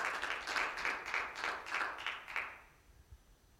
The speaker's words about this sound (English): Clap your hands right there.